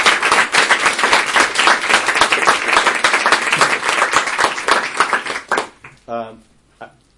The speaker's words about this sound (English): I wonder if you could put your hands together and give Dr. McGann a very warm LSE welcome.